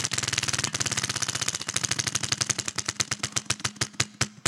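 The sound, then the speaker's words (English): A prize wheel spins with a fast, even run of ratcheting clicks that gradually slow and spread apart toward the end, loud and alone. “It's time to spin the wheel.”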